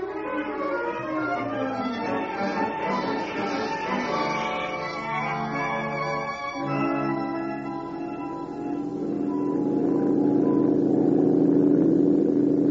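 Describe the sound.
A car engine drives off, a steady rumbling drone with a buzzing harmonic whine that swells louder near the end.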